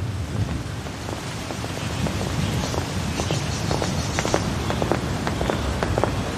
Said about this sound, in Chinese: 这风可够大的。